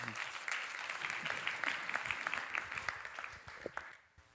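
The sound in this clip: Church audience at a Saturday morning service applauds to welcome a speaker, with brisk, steady clapping that thins to a few last claps and then falls quiet near the end.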